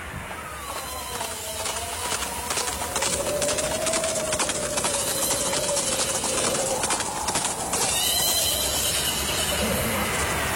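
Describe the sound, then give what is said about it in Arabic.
Two horses approaching, hooves clip-clopping in a steady run of many hoofbeats over a dense, constant background. “يابا في اثنين على خيول جايين علينا.”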